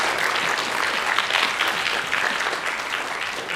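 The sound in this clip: Audience applause at a church service as a visiting preacher is welcomed, a steady, dense wash of many hands clapping at an even loudness with no breaks from start to finish.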